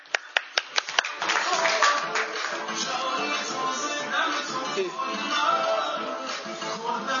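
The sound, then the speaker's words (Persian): An audience at a talk clapping, beginning with a few separate, sharp claps that quickly swell into sustained, dense applause. “خب به افتخار خودتون دست بزنید.”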